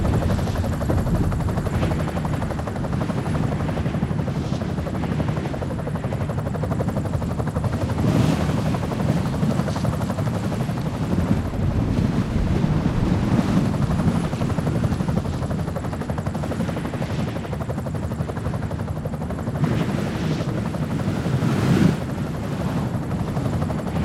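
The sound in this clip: Steady, loud roar of an arriving aircraft, a low engine rumble that holds unbroken for the whole stretch with only slight swells in loudness and no voices.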